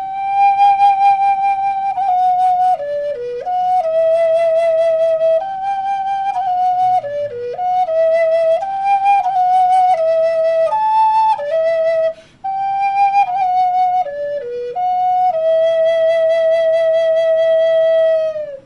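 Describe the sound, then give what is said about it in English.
A Native American flute plays the opening of the Firebird Suite, breathy sustained notes stepping up and down in a slow solo line. The passage ends on a long downward-sliding cry. “For instance, on the native flute then, the opening to the Firebird would sound like this.”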